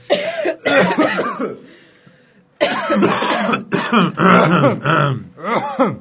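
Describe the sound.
Deliberate, forced coughing on cue: a loud run of several harsh, throaty coughs with a groaning edge, grouped in short bursts. One longer pause breaks the run partway through.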